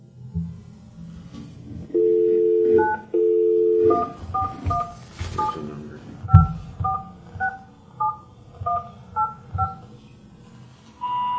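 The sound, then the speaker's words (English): Telephone keypad tones as a number is dialed, starting with 9: two longer steady tones come first, then a run of many short beeps at varying pitches, and a held tone at the end. “I dialed 9 and then 411, 417, the rest of the number.”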